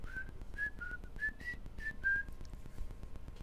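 A person whistles a happy tune: about seven short, bright notes in a loose, bouncy rhythm, then the whistling stops. A steady low hum continues underneath.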